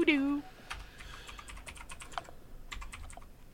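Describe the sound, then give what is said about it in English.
Clacky computer keyboard being typed on, a fast run of many sharp keystrokes clicking unevenly, fairly faint, with no voices. “I don't know if you guys can hear my new clackety keyboard.”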